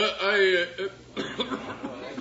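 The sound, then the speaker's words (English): A man coughs during a wedding ceremony, giving a few short rough bursts right after a brief stretch of voice. “No. I'm sorry. I just coughed.”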